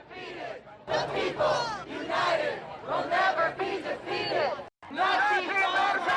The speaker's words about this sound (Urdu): یہ وہ مختلف نعرے تھے جو مخالف گروپوں نے ایک دوسرے کے لیے لگائے۔